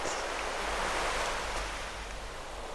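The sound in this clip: Ocean waves make a steady, rushing wash of surf noise that runs without a break and without voices, easing slightly toward the end.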